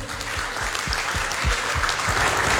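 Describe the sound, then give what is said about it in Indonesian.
Audience applause at a live radio talk show held at a high school: dense, steady clapping from many hands that holds at an even level throughout. “Terima kasih juga saya ucapkan, ya boleh kita aplaus dulu.”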